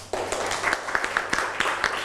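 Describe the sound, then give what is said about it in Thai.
Schoolchildren clapping in a classroom for a classmate wearing an apron: scattered, uneven claps at a modest level, with a few brief voices mixed in. “นี่เสื้อกันเปื้อนนะครับที่เพื่อนใส่มาปรบมือให้เพื่อนหน่อย”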